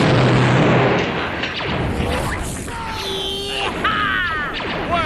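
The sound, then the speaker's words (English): Blaster fire in an audio drama: several sharp, sweeping laser zaps over a dense bed of rumbling noise and impacts, the zaps clustered in the second half. “Blaster! Blaster!”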